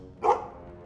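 A single short dog bark, mid-pitched and moderately loud, rises out of low background noise and fades quickly.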